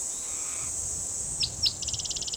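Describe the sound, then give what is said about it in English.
Cicadas keep up a steady, high-pitched drone throughout. Two short chirps and then a rapid pulsed trill cut in near the end. “A lot of cicadas in the background.”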